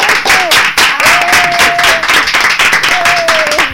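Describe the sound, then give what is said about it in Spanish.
Applause from a studio audience greeting a correct answer in a quiz game, with dense, steady clapping filling the whole clip at a loud level and a few voices rising over it. “Pues un aplauso, ¿no?”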